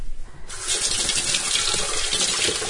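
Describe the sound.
Tap water gushes into a sink as a chunk of ginger is washed, starting abruptly after a brief quiet moment and then running as a loud, steady splashing stream.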